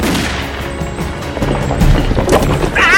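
Rubble collapsing and burying someone in a video game, a loud, dense rumbling crash filled with rapid cracks and thuds that carries on throughout.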